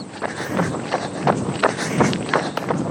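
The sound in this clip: Footsteps of a person out on a weekend run, a steady quick rhythm of footfalls about three per second over a soft noisy background, with no talk.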